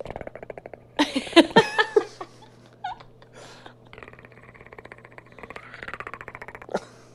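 A person imitates an alien creature's clicking with their throat, making rapid, buzzy trains of clicks in several bursts. A louder vocal outburst comes early on, followed by longer, rattling click runs that fade toward the end.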